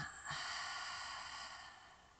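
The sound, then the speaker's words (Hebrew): A breath drawn in through the nose is followed by a long voiced exhale through the mouth during a breathing exercise. The exhale is a steady, hum-like tone that slowly fades. “ונכניס אוויר פנימה, ממש על הבטן התחתונה, דרך האף, ונוציא מהפה עם הצליל.”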